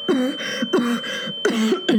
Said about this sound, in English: My lungs draw breath without my consent. I'm coughing